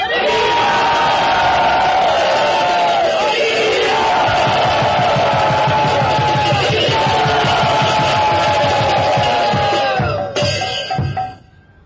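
A crowd in Bombay cheers enthusiastically in welcome, with sustained, loud massed yells and whoops that ring out together for about ten seconds. The cheering breaks into a few last shouts and then cuts off.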